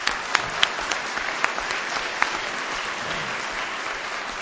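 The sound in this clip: Applause from the audience at an Al-Anon gathering for the organising committee: steady, dense clapping throughout, with a few sharper individual claps standing out and no speech.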